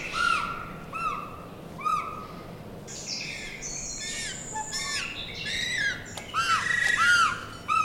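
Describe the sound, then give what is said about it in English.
Two penguin chicks at the California Academy of Sciences in San Francisco give plaintive begging cries. Repeated high, squeaky chirps and wavering squawks become denser and overlap toward the end over a soft steady hiss. “You just heard the plaintive cries of two penguin chicks at the Cal Academy of Sciences in San Francisco”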